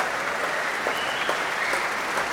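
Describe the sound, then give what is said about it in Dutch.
Sustained concert applause from an audience for the musicians of an orchestra, a dense, steady roar of clapping hands holding an even level with no breaks. “Een groot applaus nu ook voor al die verschillende muzici van het orkest.”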